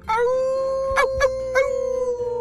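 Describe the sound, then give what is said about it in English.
A giant shaggy brown werewolf lets out a long, sustained, loud howl that holds a steady tone for over two seconds, broken by a few short, harsh bursts partway through. “Zizi, is that what I think it is? It sure is, Zach. We just received a howl.”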